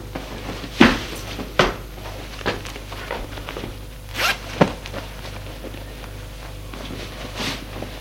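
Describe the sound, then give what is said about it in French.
A man undresses, with several sharp zipper pulls and rustles of clothing spaced irregularly over a quiet, steady background. “Et il se déshabille.”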